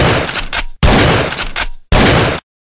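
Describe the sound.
Gunfire in three loud, dense bursts of rapid shots, each lasting well under a second, separated by short pauses, with no talk.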